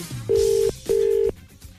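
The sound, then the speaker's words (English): Ringback tone heard by the caller on an outgoing phone call: one double ring of two steady, identical beeps of equal pitch, each lasting about 0.4 seconds with a short gap between, over a faint background. “It's ringing.”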